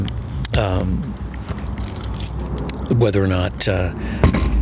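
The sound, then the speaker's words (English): Car keys jangle in a hand in a garage, giving light metallic clinks and rattles throughout while a person keeps talking over them. “Let me make sure I got my keys. Keys.”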